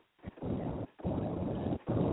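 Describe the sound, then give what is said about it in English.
Wind noise rushes over a phone call from a caller in a car, heard as three surges of muffled, rumbling hiss separated by brief gaps, steady in level, with no talk. “Yeah, what's all this wind in the background?”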